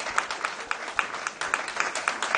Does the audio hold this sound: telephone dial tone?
no